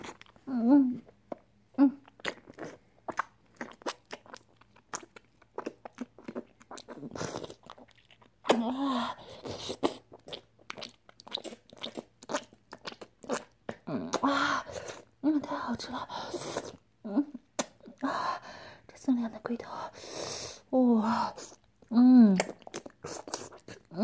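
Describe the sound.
Salty, stringy food is chewed and eaten in many wet, sticky bites and smacking mouth noises, with a voice talking and whispering between and over the chewing.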